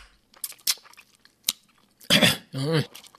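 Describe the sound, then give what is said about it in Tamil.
Crunchy chewing of freshly picked, sour karakkai fruit: a few short, crisp bites and crunches in quick succession, followed by someone speaking. “அதனாலதான்ப்பா நான் பறிச்சுட்டு வந்திருக்கேன். சாப்பிடு சாப்பிடு காரக்காயா.”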